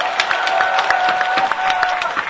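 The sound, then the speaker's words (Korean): A crowd at a labor union rally in Incheon claps steadily, with quick, crisp hand claps over a continuous wash of crowd noise and a faint sustained tone. “우리 학생 동지들 오셨습니다. 인천 박수 보내주시고 고맙겠습니다.”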